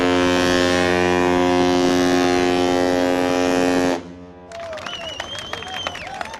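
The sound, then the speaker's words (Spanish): A ship's horn sounds as tall ships leave the port of Rouen in the Armada 2019 parade: one long, steady, low and richly harmonic blast of about four seconds, followed by busy noise laced with wavering high whistling tones. “La Armada terminó con broche de oro con su tradicional La Gran Parade, el gran desfile en el que cada barco se despide a su manera del puerto de Rouen rumbo al Canal de la Mancha.”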